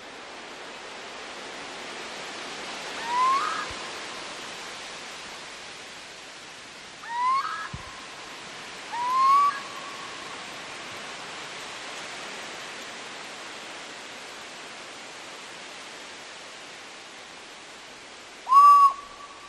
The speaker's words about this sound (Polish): Zaczyna się przepięknie od głosu chyba ptaka.